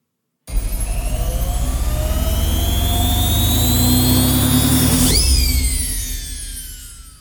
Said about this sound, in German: Und nun ab mit den Socken in die Zauberwaschmaschine. Psst, hört mal ganz genau hin. Was hört ihr da?